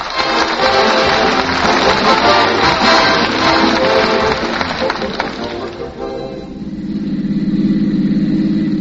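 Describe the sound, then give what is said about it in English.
A radio-drama sound effect of a car engine driving to the CBS studio: a loud, steady rumbling drive for about six seconds, then settling into a lower, even humming tone. “And here is what happened as they drove to the CBS studio on the way to the 2 Hours of Stars.”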